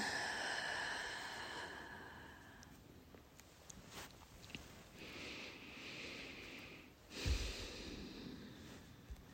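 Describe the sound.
Slow breathing in and out during a guided release exercise, soft and airy with gentle rises and falls of breath noise, faint throughout.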